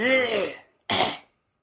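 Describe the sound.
Phlegmy throat clearing from someone drinking beer: two harsh bursts, the first a raspy voiced rumble, the second a shorter, noisier hack, then quiet.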